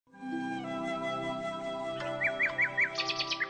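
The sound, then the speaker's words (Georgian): A nightingale sings a run of quick, repeated chirping notes, four alike and then several higher ones. The song is fairly faint over sustained tonal music. “უეცრად ფანჯრიდან უნაზესი გალობა გაისმა. პატარა ჩიტი, ნამდვილი ცოცხალი ბულბული გალობდა.”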